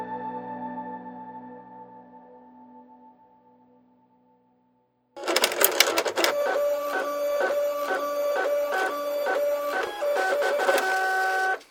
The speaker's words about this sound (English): the fax machine prints out another statement